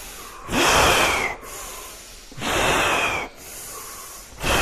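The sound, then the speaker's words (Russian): Forceful nasal inhales during a kriya yoga breathing exercise: two long, loud, rushing breaths drawn in with a short pause between them, and a third starting at the very end, alone over faint background hiss. “Мощнее вдох, чтобы он вас прям вытягивал в длину вверх, от копчика до макушки.”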